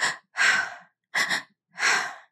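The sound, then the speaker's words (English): Shaky breathing of a toddler calming after a tantrum: four airy, breathy inhales and exhales in an uneven rhythm, heard alone with no talk. “If you've ever been around a toddler, you know they're prone to tantrums. Life gets overwhelming and they let their emotions out in a burst. As they're starting to regulate again, you may hear them breathe like this.”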